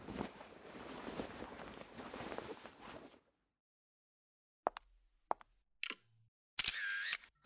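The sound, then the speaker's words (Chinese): Camera shutter clicks as a photo is taken, a few sharp snaps sounding one after another once a stretch of hissing noise cuts to silence, followed by a short bright electronic burst. “我也换上，我们拍个照纪念一下好不好？”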